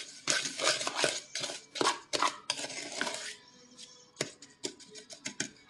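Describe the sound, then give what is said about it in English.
Wooden spoon scraping and knocking in a bowl as butter and sugar are mixed for edible brownie dough: many quick, irregular clatters and scrapes, dense for the first few seconds, then sparser, separate knocks. No one talks. “you're just gonna go ahead and mix that together. I love that sound.”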